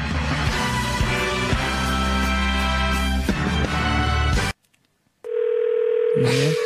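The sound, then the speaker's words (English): A steady electronic telephone ringing tone on a call that goes to T-Mobile voicemail. It sounds alone after a dense, loud passage that cuts to a brief silence, then holds level and continuous to the end. “Your call has been forwarded to the T-Mobile voicemail service.”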